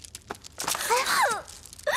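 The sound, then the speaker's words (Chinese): A woman crying, with wavering, wailing sobs and short breathy catches, fairly loud, rising and falling unevenly, then breaking off before a last brief sob. “别生气了啊，别哭了。公主您别哭了好吗？不哭了不哭了啊。”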